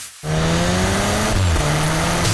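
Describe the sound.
A Cupra car engine roars in abruptly and holds a loud, steady, buzzing drone, its pitch dipping briefly once partway through before climbing back.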